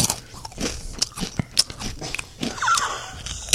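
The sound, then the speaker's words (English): Crunching bites into a whole Dorito chip, with many sharp, crackling crunches and chewing in an uneven rhythm, fairly loud throughout. “We want you to eat a whole chip, a whole Dorito, and you have to guess what the flavor is and tell us exactly how you feel as you bite into it and taste it.”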